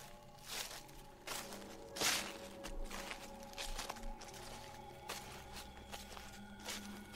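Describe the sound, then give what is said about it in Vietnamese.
Footsteps of someone walking around outside a house: a slow series of soft, dull thuds at an uneven pace over a low, steady hum. “Lúc con chó im lặng cũng là lúc tiếng chân của Khiêm ở bên ngoài dường như đang đi quanh ngôi nhà một vòng.”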